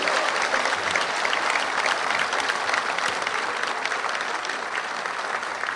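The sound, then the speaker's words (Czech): An audience applauds at a comedy stage performance. Dense, steady clapping stays loud and even from start to finish, with no voices rising above it. “A já si myslím, že mu všichni zatleskáme.”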